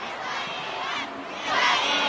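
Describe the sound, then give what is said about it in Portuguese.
An event crowd shouts and cheers for the next speaker about to take the stage, a dense continuous roar of many voices that dips briefly and then swells louder toward the end. “Eu tô com o André Godoy do Sebrae, mas olha o grito pro Isaías.”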